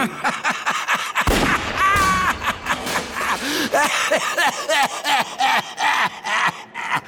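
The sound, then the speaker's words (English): Gunshots in a video game: a loud, sharp burst of gunfire stands out among gasps, groans and animated character voices talking throughout. “Oh, I'm shooting a gun. It's fun!”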